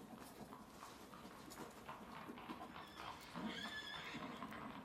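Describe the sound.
A horse whinnies on an evening forest road where riders gallop, the neigh rising in a faint, high, quavering call in the latter part, preceded by soft hoof clatter and a low background rustle.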